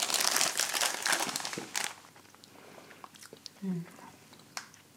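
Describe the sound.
Gingerbread cookies crunch as someone eats them, with dense crisp bites and chewing for the first two seconds, then sparser, quieter chews and crumbs alongside soft talk.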